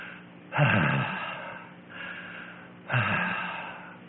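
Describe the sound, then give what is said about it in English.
A man's voice imitates a sick child breathing easier: two long, audible snorting breaths with a quiet gap between, heard alone. “my wife said, honey, he's breathing easier. I looked over and he was going,”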